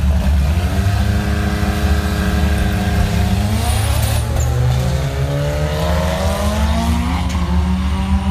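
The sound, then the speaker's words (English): Race cars roar around a Hawaii speedway during a weekend race held without spectators. The engine roar is loud and unbroken, with several engine tones rising and falling in pitch throughout. “The sounds of racing filled the empty grandstands this weekend at Hawaii Speedway.”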